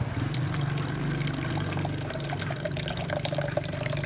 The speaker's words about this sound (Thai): ก่อนที่จะย้อมเนี่ยเราต้องกรองน้ำสีที่เราเคี่ยวเอาไว้หรือว่าที่เราต้มเอาไว้เพื่อที่จะแยกกากแยกน้ำ